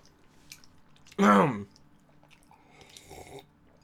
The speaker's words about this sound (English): God, I'm chewing a lot. It probably sounds a lot really annoying